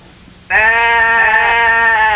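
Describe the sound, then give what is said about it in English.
One sustained sheep bleat, loud and steady with a nasal, harmonic-rich tone, starting abruptly and holding for well over a second without a break. “You realize you hit the sheep so much you killed the intro music?”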